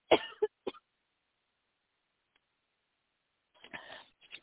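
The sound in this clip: Coughing from a tickle in the throat: a short cluster of sharp coughs, a long silence, then another rougher burst of coughs and throat clearing, with no talking.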